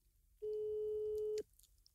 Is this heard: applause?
no

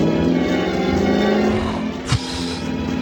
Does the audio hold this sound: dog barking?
no

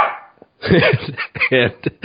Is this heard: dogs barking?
yes

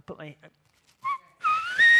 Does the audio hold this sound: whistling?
yes

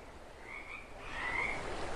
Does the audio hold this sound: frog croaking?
yes

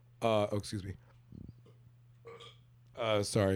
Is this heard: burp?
yes

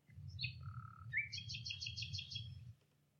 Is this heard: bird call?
yes

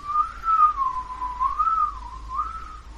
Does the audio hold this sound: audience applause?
no

